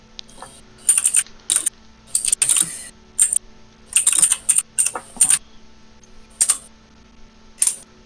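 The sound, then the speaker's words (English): Furious typing on a computer keyboard comes in many fast bursts of crisp, clicking keystrokes separated by short pauses, loud and alone against a faint, steady background hum. “Furious typing.”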